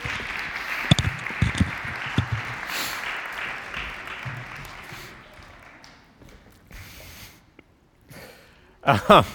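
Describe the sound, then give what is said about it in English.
Audience applause for a speaker swells as a dense clatter of claps for several seconds, then thins and fades to near silence before a brief noisy burst at the end. “Thanks, Kim. Thanks. Let's give Kim a hand. Yay!”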